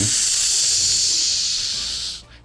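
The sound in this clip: Steam hisses loudly as hot metal is quenched in a bucket of oil, a steady, bright rush that holds for about two seconds before cutting off and fading away.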